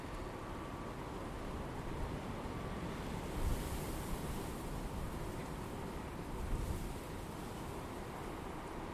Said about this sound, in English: That's a refreshing wind, very refreshing.